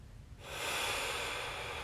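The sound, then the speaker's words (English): A single deep inhalation during a guided breathing exercise: a steady, airy rush of breath that begins after a short quiet pause and holds evenly for more than a second. “Just breathe it in.”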